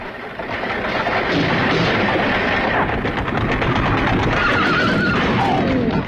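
A horse whinnies near the end over a loud, continuous rumble as a horse-drawn carriage speeds across wasteland.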